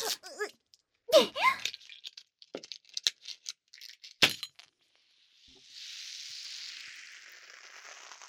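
A glass ramune bottle being opened: a run of sharp clicks and knocks on glass, then a steady fizzing hiss of carbonation that carries on to the end.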